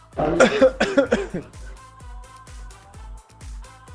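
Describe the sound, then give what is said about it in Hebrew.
A short series of harsh, breathy coughs recorded for a COVID-19 cough detection project, followed by soft tonal music with low, regular beats. “בוא נשמע, בוא נשמע, בוא נשמע אותך. הנה השיעול הראשון.”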